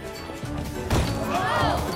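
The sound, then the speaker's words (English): A loud crash as a girl slams into a stage scenery prop and falls flat: one sharp, heavy impact partway through, followed by a lingering noisy tail. “The girl crashes into a scenery prop and falls flat.”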